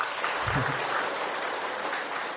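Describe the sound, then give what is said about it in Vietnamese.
Applause from Buddhist followers seated in a temple's main hall: a dense, steady wash of clapping that holds at an even loudness for the whole stretch. “Quý vị cho các Phật tử nó một tràng pháo tay ha.”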